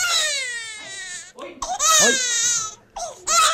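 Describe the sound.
A newborn baby cries, born extremely small, in a few loud, high wailing bursts with short gasping pauses between them.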